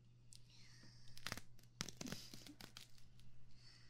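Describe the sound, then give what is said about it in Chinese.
Material being ripped forcefully along a seam, faint, with a few sharp tearing bursts and crinkling in between. “顺着这条缝用力的，你也要试一下吗？ 很过瘾的哟。”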